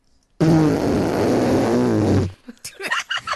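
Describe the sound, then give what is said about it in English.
A raspberry is blown with the mouth. It is a loud, buzzing, flapping blurt held for about two seconds, with a wavering low pitch that sinks toward its end, and voices talk briefly afterward. “Well, I heard him give you a raspberry.”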